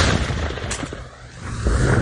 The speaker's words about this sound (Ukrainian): На горі лунають вибухи